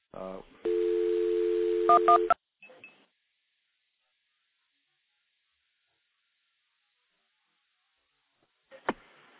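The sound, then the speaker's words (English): A telephone dial tone and touch-tone dialing, routed through a stack of five or six phone trunks. A buzzy steady tone is followed by a few quick beeps, then long silence, with a single click near the end. “after this one, I'm going to actually dial a recording through the stack of about five or six trunks that I've got stacked up here.”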